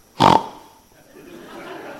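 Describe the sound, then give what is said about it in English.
A voice imitates an angry pig snorting: one loud, rough, throaty burst at the start, followed by faint murmuring talk. “To verbally snort. It's a picture of an old pig snorting. To verbally snort in anger.”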